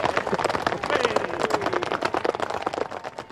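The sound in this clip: Horses at the Hawick Common Riding charge up a hill, with many hooves clattering. The beats come in a dense, continuous, loud rush throughout.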